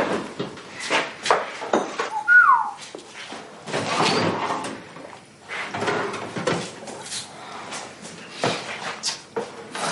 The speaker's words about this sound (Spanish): Vuelve a la cocina y saca el asado del horno.